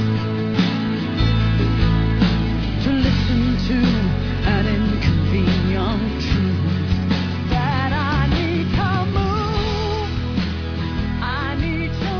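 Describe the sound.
A song plays with a full, steady band backing throughout, and a singing voice with wavering held notes comes forward in the latter part.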